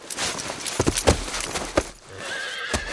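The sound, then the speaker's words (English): A horse whinnies amid a run of hoof clip-clops as riders swing into the saddle and head out of town, the clops sharp and uneven and the neigh a loud, drawn-out cry. “Matt and Sam swung into the saddle and headed out of town, waving at the citizens as they rode toward the crossroads”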